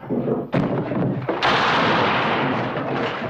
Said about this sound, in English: It's pretty fair shooting for an old married man.